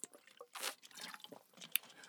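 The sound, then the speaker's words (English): Someone takes a drink of water, a few faint, wet gulps and swallows with small clicking mouth sounds, alone and without talk. “Let me take a drink of water, Ben, real quick. Hold up.”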